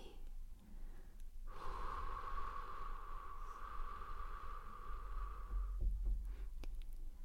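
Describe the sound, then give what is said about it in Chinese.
One long, slow, deep breath taken during a guided relaxation breathing exercise, a steady airy rush that lasts several seconds and stands alone without talk. “来做三个深长的呼吸，慢慢的吸气，再慢慢的呼气。”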